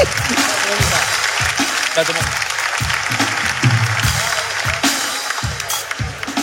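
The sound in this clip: Applause for a guest on a New Year's Day show, a sustained, fairly loud wash of clapping from a crowd with voices talking over it.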